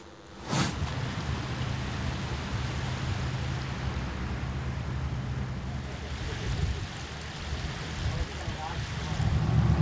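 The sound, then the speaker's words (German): Boat engine rumbling as the vessel leaves the Elbe side canal and heads out onto the Elbe river, a steady low drone under broad wind and water noise that swells slightly toward the end. “Wir verlassen jetzt den Elbe-Seitenkanal und fahren direkt auf die Elbe.”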